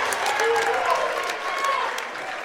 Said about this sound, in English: Need some crowd management. Yeah. There's some issues with these YC fans, if you can hear that in the background.